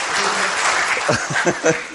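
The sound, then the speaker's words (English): Audience applause for a team leader who has just come up, a broad burst of clapping that starts full and carries on while voices rise over it in the second half. “Now that he's here, come up, clap for him.”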